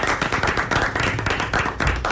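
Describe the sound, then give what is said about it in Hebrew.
Audience applauding during a rabbinic study discussion about a learning quiz, a dense, continuous burst of hand clapping with an even, steady texture throughout. “כבר אנחנו מחיאות כפיים, אני חושב.”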